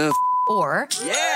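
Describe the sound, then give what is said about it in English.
An online store's sale notification chime: one steady, bright beep-like tone holds for about half a second under excited voices that talk over it. “That's the sound of selling on Shopify,”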